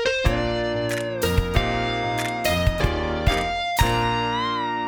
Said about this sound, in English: Let's get that cheesy theme music to play us out.